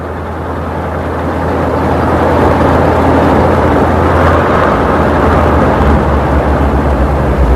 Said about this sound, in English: Madeline drives off, followed by Scotty.